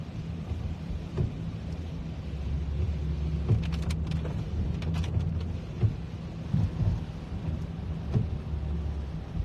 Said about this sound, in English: The drizzle is turning into a rain.